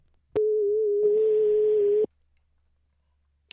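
A telephone busy signal on a call attempt: one steady mid-pitched tone holds for under two seconds, with a hiss joining it halfway through. It then cuts off into near silence, followed by a brief click at the end.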